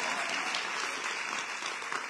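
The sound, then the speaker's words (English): An audience applauding at a community organizing speech, with dense, even clapping that holds at a steady level throughout. “Don't clap for that.”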